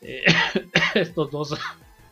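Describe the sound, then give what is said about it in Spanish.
A person coughs on air, a few rough, throaty bursts in quick succession with brief gaps between them. The sounds are fairly loud and partly voiced, like throat clearing, and fade at the end. “Perdonen ustedes, me regreso la tos.”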